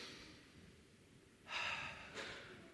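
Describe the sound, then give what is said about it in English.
People take a deep breath in and out during a guided breathing exercise at a church service: two faint, airy breath sounds, the first longer and fuller, the second shorter, over a quiet background. “we're going to take a deep breath in, and we're going to get it out.”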